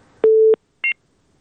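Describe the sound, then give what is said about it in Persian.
Telephone tones as a call is disconnected: one steady low beep lasting about a third of a second, then a shorter, higher two-toned beep, alone against near silence. “متاسفانه تماس رفیع الله از تگاب قطع شد”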